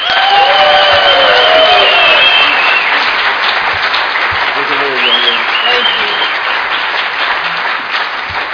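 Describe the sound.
Audience applause welcoming a speaker at an Alcoholics Anonymous gathering: dense, steady clapping from a crowd that stays loud throughout, with a few voices audible near the start.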